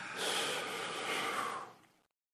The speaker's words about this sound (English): bring your belly back to exhale, but this time a bit forcefully, like you're trying to touch your navel to your spine, and exhale, exhale, everything out.